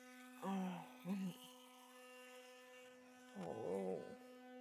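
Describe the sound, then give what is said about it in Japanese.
An electric toothbrush brushing teeth gives a constant high buzzing hum rich in overtones throughout. Muffled vocal sounds surface over it in a few short bursts. “この電動歯ブラシを考えた人、天才だよね。磨くの超楽になったし。”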